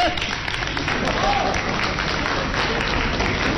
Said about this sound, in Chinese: 这位太没羞没臊了啊！有自己给自己鼓掌的吗？